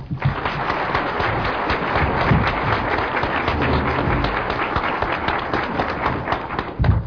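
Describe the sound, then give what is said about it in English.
Audience applause welcomes a speaker to the front: dense, steady clapping from many hands that holds at an even, fairly loud level for the whole stretch with no voices over it. “And let's give her a warm welcome.”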